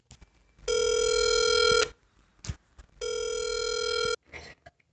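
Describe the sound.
A telephone rings for an incoming caller: two long, steady, bright electronic rings of roughly a second each, separated by a pause, with faint clicks and small knocks between and after them.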